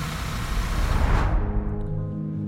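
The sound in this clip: A vehicle engine drives off with a loud, steady rumble. Partway through, the brighter hiss dies away and a low humming drone remains.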